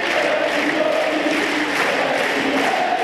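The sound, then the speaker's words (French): Crowd chanting a young tennis player's first name at Roland-Garros: a dense, steady roar of many voices fills the whole stretch without pause. “Le public qui scande le prénom de Kwame, c'est le nouveau tube de Roland-Garros.”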